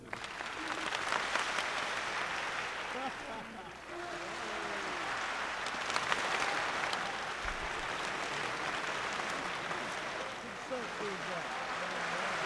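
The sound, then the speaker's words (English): An audience claps in a wave meant to travel around the room as sections start and stop in turn. The sustained clapping eases briefly partway through, and voices talk over it. “you start clapping, and I move my hand across like this, and as it goes this way, you guys stop, so the sound moves around the room”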